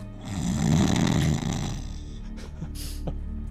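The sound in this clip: A character snores loudly after falling asleep: a long, rattling rasp that swells, then trails off into quieter, rougher breathing.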